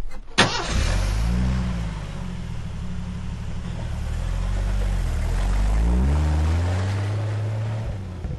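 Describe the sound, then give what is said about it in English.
A mud-covered Jeep pulls away after days of rain: a sharp thump at the start, then a steady low engine rumble that climbs in pitch as it drives off, with broad road and wind noise. “gets back in the Jeep and heads east.”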